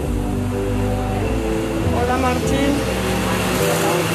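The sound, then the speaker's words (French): An electric fan runs with a loud, constant motor hum and a few steady tonal lines that shift slightly partway through, with no pauses or breaks. “Ça, c'est le bruit du ventilateur.”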